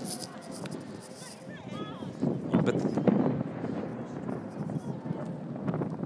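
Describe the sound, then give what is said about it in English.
Wind blowing across a microphone outdoors at a spot for watching fireworks, a steady low rumbling buffet that swells somewhat louder midway and stays rough and constant throughout. “Sorry about the wind, but it's just the way it is.”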